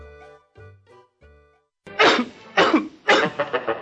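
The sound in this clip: A person coughs three harsh, loud times in a spaced sequence. A few short voiced sounds come just before the coughs.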